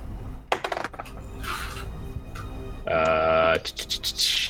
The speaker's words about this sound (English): Go ahead and roll an investigation check.